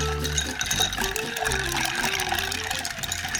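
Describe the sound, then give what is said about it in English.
Spoon stirring a drink in a mixing glass, a continuous watery swirl over a steady low hum. “then you took your spoon and let's stir it down. Let's cool it down a little bit.”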